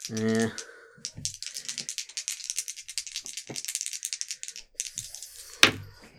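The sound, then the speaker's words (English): A cat plays with dropped dice, making many quick clicks and clatters in an uneven patter, with people talking at the start and the end. “I dropped the dice. Yeah, if you hear jangling in the background, that's my cat, Spiegel. He's playing with my dice.”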